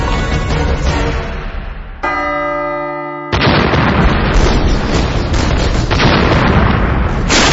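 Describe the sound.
A blast tears a hole in a museum wall, a loud, sustained roaring rumble. It breaks for about a second into a ringing, bell-like tone, then erupts again in a sudden heavy burst that keeps booming to the end.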